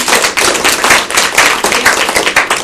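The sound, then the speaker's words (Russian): Applause fills a room as a group claps together, loud and dense, with sharp overlapping hand claps rising and falling in waves for the whole short burst. “Пока аплодисменты всем здесь.”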